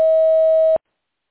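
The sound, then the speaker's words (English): An answering machine beep, a single loud, steady pure tone lasting about three-quarters of a second that cuts off abruptly into silence. “Please record your message after the beep.”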